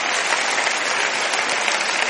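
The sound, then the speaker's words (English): A church audience claps hands together, producing a thick, continuous wash of many claps that stays loud and even for the whole stretch without a break. “Now let's give the Lord a hand clap for what he's done.”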